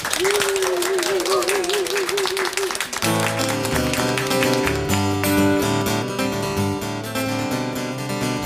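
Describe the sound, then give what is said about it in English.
Applause and cheering from an audience welcome a performer for a live music session, a dense wash of clapping that lasts about three seconds before guitar and voice music begins and carries on to the end. “please put your hands together and welcome performing one of his own songs”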